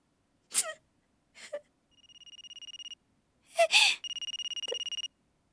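A telephone rings with an incoming call from a withheld number: two bursts of rapid, trilling electronic ringing, each about a second long. Short gasping breaths come before and between them.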